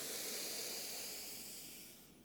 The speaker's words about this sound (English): just being that light as we breathe three times all together as part of this one, cells in a cosmic organism. Ready? In through the nose,